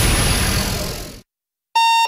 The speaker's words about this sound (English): Good morning. This is your Hardee's 2 for $5 breakfast mix and match alarm.